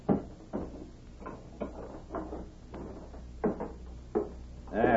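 Metallic clunks and knocks of a safe door being shut and locked, a series of separate thuds and rattles spread over several seconds that end in a louder rattling clatter.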